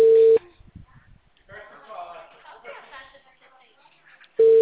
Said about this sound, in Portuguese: Vou ligar pra Camis.